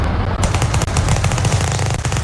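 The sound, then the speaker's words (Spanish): Gunfire from gangsters shooting at each other: a dense, unbroken string of many sharp, rapid shots over a low rumble, loud from start to end with no talk. “¿Qué es eso? Pues se están disparando, pues mira, los están matando.”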